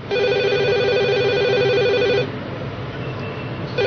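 A telephone rings with a steady electronic trill for about two seconds, then stops before starting to ring again at the very end.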